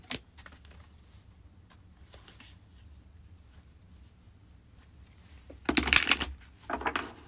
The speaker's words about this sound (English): So let's pull a Witch's Wisdom Oracle card.